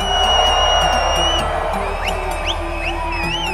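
Concert crowd in Croatia cheering and making noise, a dense roar threaded with sustained high whistles and several quick rising whistle sweeps in the second half.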